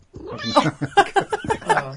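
A cat meows while held up to the microphone, giving a quick run of short, loud harmonic meows and chirps with brief gaps between them.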